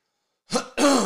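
A person clears their throat in two quick rasping bursts, a short gruff scrape followed by a longer, stronger one, alone and fairly loud.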